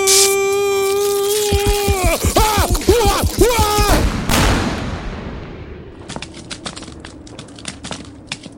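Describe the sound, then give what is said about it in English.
An explosion bursts out as a sudden loud noisy roar after a stretch of wavering tonal sounds. It decays over a few seconds into a scatter of sharp crackling clicks. “Oh, God! Holy shit, he exploded!”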